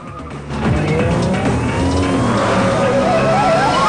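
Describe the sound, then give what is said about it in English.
High-performance street racing cars roar through city traffic, a loud, continuous engine din with shifting pitch as they accelerate and pass. “High-performance cars roar through the city and merge with the general traffic. Police cars pursue the street racers.”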